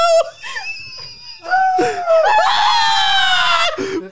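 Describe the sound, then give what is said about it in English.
People shriek in fright at a big spider. Short high-pitched cries build into a loud, sustained, piercing scream, followed by a lower, shakier cry. “Everybody's screaming. It's making me more scared.”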